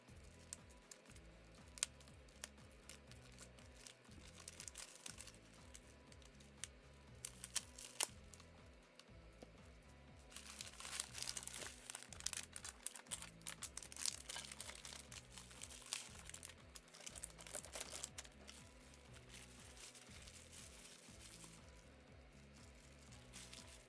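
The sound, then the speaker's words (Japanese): A package is opened with faint crinkling and rustling of wrapping: many small crackles and clicks run throughout, growing denser and louder through the middle stretch before easing off again. “まあね、開封してるの。”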